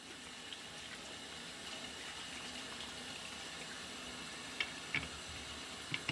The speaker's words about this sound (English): And then I washed my hands for a long time.